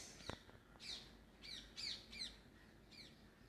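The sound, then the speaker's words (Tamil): Morning birdsong from sparrows and parrots: a series of short, high, faint chirps and squawks repeating at uneven intervals over quiet background hiss. “கேட்குறீங்களா சவுண்ட்ஸை குருவி கிளி எல்லா சவுண்ட்ஸும் கேட்கு”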